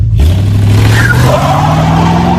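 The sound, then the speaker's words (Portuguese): A car pulls away with its engine revving hard, a loud continuous roar that climbs steadily in pitch across the whole clip. “Pô, saiu, saiu cantando pneu.”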